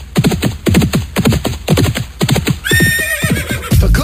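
Horses gallop with rhythmic, pounding hoofbeats, then a loud, long whinny with a bright, wavering pitch rises over them before the hooves return.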